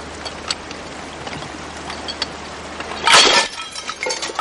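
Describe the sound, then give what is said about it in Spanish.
A basket of containers and vegetables drops onto the ground. A short, loud clattering crash comes after a few seconds, with faint scattered clinks and knocks before and after it. “La cesta se le cae y recoge los recipientes y verduras que se esparcen por el suelo.”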